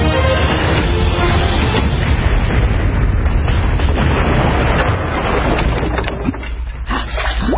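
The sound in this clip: A loud, sustained explosion roars as a toy battleship is blown up, a dense rumbling blast that fills the whole clip and eases slightly near the end.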